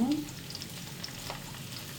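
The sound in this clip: Steady sizzle of onion frying in a pan, a continuous dense crackling hiss that stays at an even loudness from start to finish.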